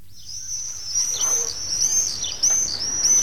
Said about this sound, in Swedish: Ja, de låter för övrigt, de här tornseglarna, så här.